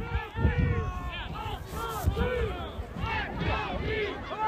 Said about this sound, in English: I don't know if you can hear it in the background. They're chanting.